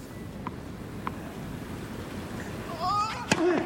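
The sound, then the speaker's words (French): Tennis kick serve and a mishit forehand in a Novak Djokovic match: two faint, sharp ball strikes a little over half a second apart over a low steady hum, followed by a louder whistling tone near the end. “Encore une petite première liftée, suivie d'un coup droit complètement décentré qui sort de 2 mètres de Novak Djokovic.”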